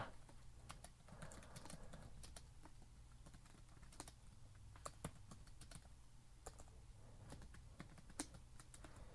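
Typing a support case on a computer keyboard: a sustained run of quick, light key clicks in an uneven rhythm, with occasional louder strokes standing out.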